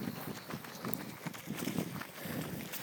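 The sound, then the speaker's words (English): Footsteps of a group of runners going past, a quick, uneven patter of many feet, fairly faint and steady throughout. “My mistake, it wasn't a school of kids, it was a group of runners.”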